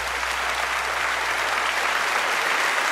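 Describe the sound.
Steady, dense audience applause greets a Bible scholar joining as a guest, a thick even wash of clapping that holds at a constant level from start to finish with no voices over it.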